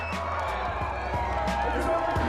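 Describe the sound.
A crowd cheers at a table tennis match in Los Angeles, a steady, loud roar of voices with scattered whoops and claps, and a voice talks over it.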